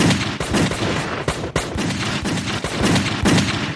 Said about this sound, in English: They both heard movement and fired randomly into the black basement.